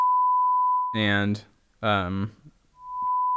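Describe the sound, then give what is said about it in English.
A censor bleep, a steady pure high tone, sounds twice, once at the start and again at the end, with a short stretch of speech between them. “I'm gonna have to say beep. I had to beep that out again.”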